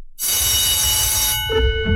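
A telephone rings for an incoming call: a bright, sustained metallic bell burst with ringing overtones lasts about a second, then cuts off, leaving quieter tonal sounds.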